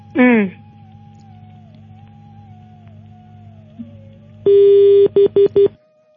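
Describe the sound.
Telephone tones after a caller is cut off on a phone-in line: one longer steady beep followed by three short beeps at the same pitch, loud and clipped, then silence.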